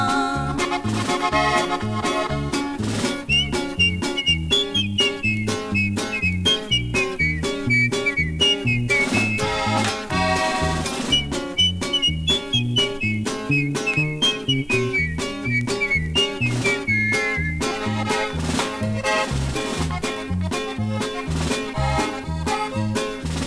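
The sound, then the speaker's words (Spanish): Human whistling carries a gliding, high melody through a song about a whistler, layered over a dense band with a steady, driving beat. The whistled line enters after a few seconds and runs through most of the track. “Cuando su mami se descuida, nos vamos calle arriba, no dejo de chiflar.”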